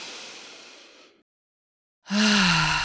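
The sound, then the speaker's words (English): A long, deep breath drawn in through the nose: a soft, airy hiss that slowly fades over about a second, then silence, then a brief voiced sound. “Take a deep, deep breath in with me through your nose.”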